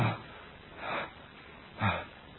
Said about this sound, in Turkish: Boğuluyor sanki, nefes alamıyor.